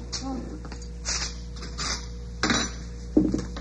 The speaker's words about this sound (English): Got a spoon?